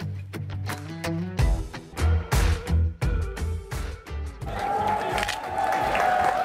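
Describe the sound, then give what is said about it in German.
Protest crowd at a nationwide student strike in Austria against oral Matura exams and for infection protection in schools. Rhythmic pulses of massed voices come first, then a louder, continuous wash of crowd noise. “So klang der landesweite Schülerstreik in Österreich. Schülerinnen und Schüler blieben dem Unterricht fern und protestierten unter anderem gegen die mündliche Matura und für mehr Infektionsschutz an ihren Schulen.”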